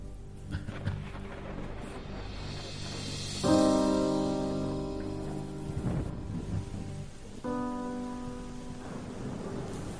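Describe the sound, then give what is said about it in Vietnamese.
Evening rain falls in a village as a soft, continuous hiss with low rumbling beneath, while sustained musical tones rise over it twice. “Mưa mỗi lúc một lớn, lúc nhỏ, kéo dài từ chiều.”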